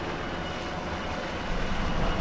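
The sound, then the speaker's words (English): A Black Hawk military helicopter lifts off from a combat outpost in eastern Afghanistan. A dense, steady roar of rotor and engine noise swells slightly louder toward the end. “Colonel Toner lifts off from Combat Outpost Wilderness in a Black Hawk helicopter and banks east.”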